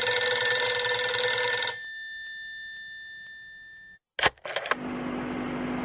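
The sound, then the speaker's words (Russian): A telephone rings with one long, bright electronic tone that fades into silence. A few sharp clunks and a steady hiss follow. “Вдруг зазвонил телефон.”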